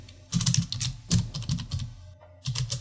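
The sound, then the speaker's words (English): Rapid typing on a computer keyboard, with many quick bursts of crisp key clicks in uneven runs and short pauses between them. No voices. “My fingers are not typing correctly.”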